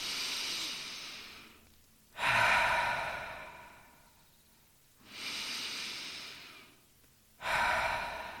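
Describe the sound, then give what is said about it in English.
Slow, deep belly breaths during a guided meditation, soft and airy, with long drawn breaths alternating with quiet pauses in a steady, unhurried rhythm. “Now let's compare this breath with a belly breath. Let's take two belly breaths.”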